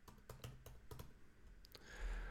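Quiet tapping of keys on a computer keyboard as a message is typed, with many light clicks in quick uneven runs, a short gap, then a few more strokes.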